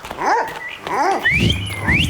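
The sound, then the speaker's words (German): Dog whimpering and yipping in a few short, high-pitched calls: two arching yelps, then two rising whines. The calls are loud and clear, with no talk. “hier kommt dein Vater mit seinem Hund.”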